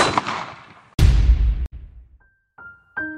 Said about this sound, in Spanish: Pero un día, unos hombres malvados, de un solo tiro, acabaron con la vida de su mejor amigo.